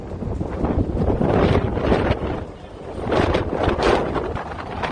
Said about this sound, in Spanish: Son rachas de viento que rondaban los 90 kilómetros por hora y que obligaban a suspender el partido que jugaba el equipo local en el campo municipal donde está grabado este sonido.